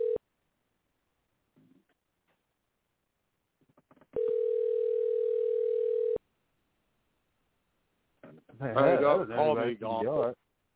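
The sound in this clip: Ringback tone of an outgoing telephone call, a steady single-pitched tone held for about two seconds after a brief opening blip, then silence before a person answers and speaks.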